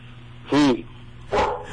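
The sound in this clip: Dogs barking: two loud barks about a second apart, the first clear and tonal, the second rougher and noisier, over a low steady background hum.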